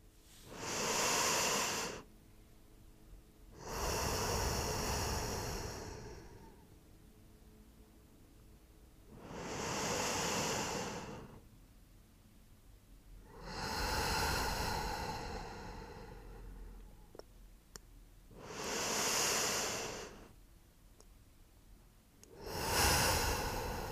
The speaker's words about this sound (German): Und jetzt nimm nochmal drei tiefe Atemzüge.